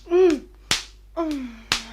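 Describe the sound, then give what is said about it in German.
Two sharp open-hand slaps to a woman's face to revive her, about a second apart, each a crisp smack, with low, falling groans from her between them. “Geben Sie ein paar Ohrfeigen, damit sie zu sich kommt.”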